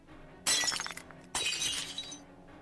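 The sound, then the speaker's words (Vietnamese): Glass shattering as an oil lamp is smashed against a head, two loud crashing bursts of breaking glass with bright tinkling debris, each tailing off before the next, no voices. “vội vàng chụp lấy cái đèn dầu, đập thẳng vào trán của bà già.”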